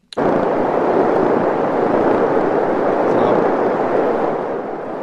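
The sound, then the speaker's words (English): A machine-gun-like sound effect heard in the distance forms a continuous, dense rumbling roar that starts abruptly and holds steady at a loud level, easing slightly near the end. “It does sound like machine guns, but in the distance. Oh, there it is. I hear it.”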